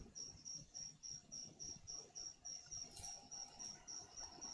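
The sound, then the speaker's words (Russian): Crickets chirping in a steady, evenly spaced series of high, thin trills that repeat many times, faint against a quiet, hissy background. “Теперь из-за сверчков в записи тишина вырезаться не будет? Да нет, вырезается все равно.”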